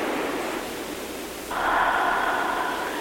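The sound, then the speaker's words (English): Deep, slow breathing during a guided relaxation exercise, a soft airy rush that swells louder and fuller partway through, heard alone without talk. “And just begin the breath.”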